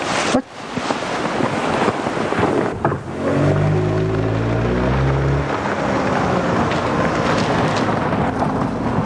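A car being driven: broad rumbling road and wind noise throughout, with a low engine drone that swells into a humming tone in the middle before fading back into the rumble, with no talk.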